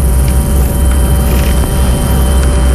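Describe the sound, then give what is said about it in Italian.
A steady, dense drone played on an Indian shruti box fills the whole clip. It has a heavy low end and a hissing upper layer, and its loudness stays even throughout. There is no talk. “creati attraverso un drone, diciamo, uno strumento che crea drone dal nome Shruti Box, di origine indiana per l'appunto.”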